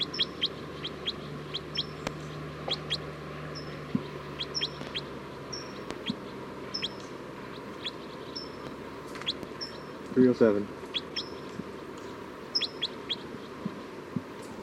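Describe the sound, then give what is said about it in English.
Faint bird calls: a steady series of short, high chirps repeating evenly throughout, with a brief louder, lower burst of calling about two-thirds of the way through. “Oh, it's recording bird 307 again.”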